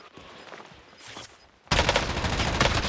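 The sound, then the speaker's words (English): Pistol gunfire in a video game. Quiet rustling gives way to a sudden loud burst of rapid, crackling shots that continues to the end. “What the fuck? Why have you got a gun that you just spawned in? Pistol, mate.”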